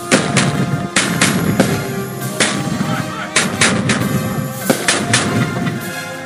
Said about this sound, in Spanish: A mi señal, apunten. ¡Fuego!